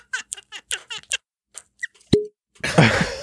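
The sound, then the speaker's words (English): A cork pops out of a bottle with one sharp, hollow plop and a brief ringing tone. People are talking just before it, and a burst of noisy voices follows. “That was the weirdest fucking sound. That cork popping.”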